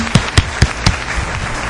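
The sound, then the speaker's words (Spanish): Audience applause in an auditorium at a live show, opening with four loud, evenly spaced claps that trail off into softer, scattered clapping. “vamos a pedirles un fuerte aplauso a todos aquellos que nos están escuchando. Por favor, un aplauso para todos.”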